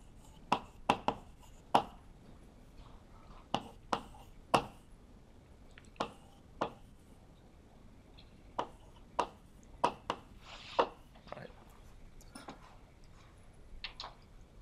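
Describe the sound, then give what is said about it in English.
Writing down a number during a lecture: a scattered series of many sharp, quick ticks and taps in irregular clusters, fairly faint over a quiet background. “And I'll write down the archive number again.”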